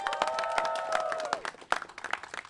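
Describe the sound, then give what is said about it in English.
An audience applauds the group Rising Juntos with dense, steady clapping that thins into scattered, spikier claps toward the end. “Let's give it up for Rising Juntos, y'all.”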